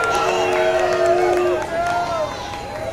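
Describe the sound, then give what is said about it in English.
A festival crowd cheers on a Friday night, a dense roar of voices topped by whoops and shouts, loud and continuous before easing slightly toward the end. “Oh, come on, you guys are loud enough. Come on, it's Friday night. It's Friday night.”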